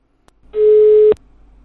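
A telephone busy signal sounds after redialing: one flat, mid-pitched tone lasting about half a second, framed by faint clicks on the line.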